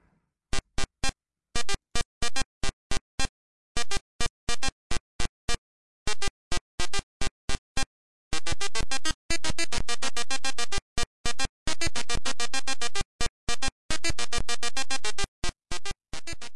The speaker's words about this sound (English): a game from 1986 by Activision. It's called, well, actually, let's quiz you. Let's see if you remember. This is what it sounds like on an Apple IIe.